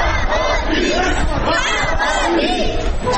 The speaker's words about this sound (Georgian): ამ შეძახილებით ქუთაისის მერიის წინ ბუხაიძის ქუჩის მაცხოვრებლები ქალაქის მერთან შეხვედრას მიმდინარე კვირის დასაწყისში მორიგი აქციისას მოითხოვდნენ